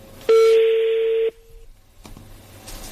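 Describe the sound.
A single telephone keypad tone sounds as a number is dialed: one steady, fairly loud beep lasting about a second, then cutting off into quiet low background noise.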